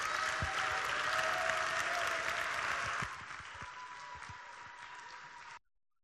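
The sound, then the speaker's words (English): Audience applause welcoming a speaker on stage at Highland Square, a dense, continuous patter of many hands. It drops noticeably in volume about halfway through, then stops abruptly into silence. “Can you guys put your hands together?”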